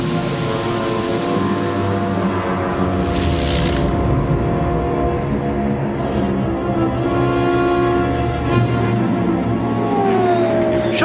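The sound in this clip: A spaceship's engines rumble loudly as it descends onto a landing platform, a dense, steady drone of low roar and layered tones lasting throughout without a break.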